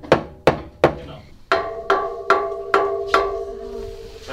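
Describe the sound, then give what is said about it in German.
Eight sharp wooden knocks of claves struck against a table edge. The first three are dry and evenly spaced; the last five each ring with a short tonal resonance. “Ja, hier mit auf den Tisch hauen, so.”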